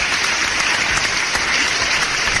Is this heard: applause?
yes